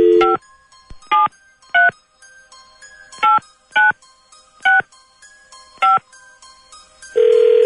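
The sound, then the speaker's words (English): A telephone number is dialed at random: seven short touch-tone beeps at uneven intervals, then a steady, louder tone that carries on to the end. “Dialing at random.”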